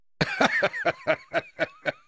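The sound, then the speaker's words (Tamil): A man loudly clears his throat in a rapid run of short, gruff, voiced bursts, evenly spaced and forceful, with no other sound around them. “Pazhuvettaraiyar இதற்கு மறுமொழி ஏதேனும் சொல்ல வேண்டும் என்று எண்ணி தமது தொண்டையை கனைத்துக் கொண்டார். அது சிங்க கர்ஜனையைப் போல முழங்கிற்று.”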